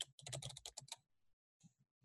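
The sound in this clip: Computer keyboard typing as a note is written down: a quick flurry of many faint key clicks, then a short pause and a few isolated soft taps.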